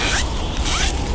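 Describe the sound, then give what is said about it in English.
Zipper on a child's new warm winter coat being zipped up, giving a couple of quick, loud rasping strokes with a brief pause between them. “That's the sound of a child zipping up their new warm winter coat that you donated.”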